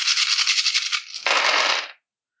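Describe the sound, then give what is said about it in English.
A large handful of dice rattled and rolled for a tabletop role-playing game. The clatter is dense and continuous, grows fuller and louder partway through, then stops abruptly into silence. “I actually have enough dice to roll Mr. Black's armor.”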